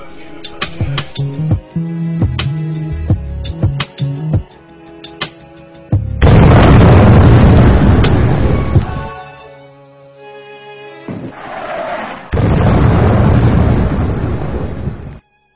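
Bombs exploding during war in Baghdad, Iraq, heard as two long, loud, rumbling blasts with a brief lull between them, preceded by a run of sharper percussive knocks.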